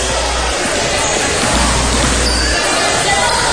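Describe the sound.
A basketball bounces on the court a few times during a basketball game, its dull thumps half buried in steady crowd noise and a voice.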